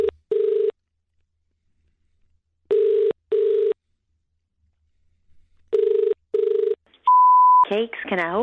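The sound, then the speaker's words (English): Ringback tone of a telephone calling a cake shop, sounding as repeated paired buzzing rings with pauses between, then a short steady higher beep before a voice answers. “Here we go. Dial up.”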